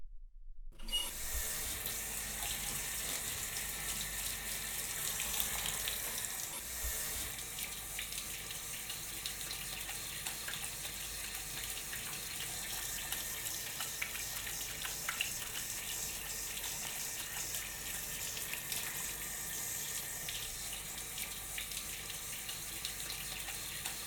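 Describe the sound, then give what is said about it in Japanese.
Water runs steadily as shampoo is rinsed from a child's hair, a continuous even hiss and splash that goes on without a break for the whole stretch, with no talking. “それじゃあこのまま頭を洗い流していくから、まだお目目閉じててね。”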